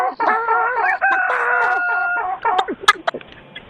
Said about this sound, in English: I'm going to kick the chicken if you don't get him... If you don't pick him up, he's biting me again.